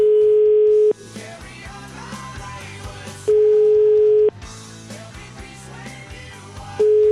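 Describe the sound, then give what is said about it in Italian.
Telephone ringing tone on an outgoing call to an Italian line: a steady mid-pitched tone sounding in three long bursts, the last cut short, with music filling the gaps between them. “Proviamo a chiamarlo,”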